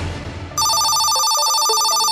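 A telephone rings for an incoming call. A bright, loud, steady electronic trill starts abruptly after a brief stretch of low background noise and continues to the end.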